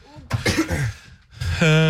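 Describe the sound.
Someone coughs straight into a microphone: a few harsh, loud, breathy bursts close up, followed by a voiced throaty sound.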